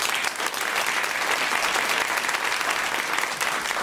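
Loud, sustained audience applause welcomes a panel of authors, dense and even throughout with no break, a full crowd clapping together.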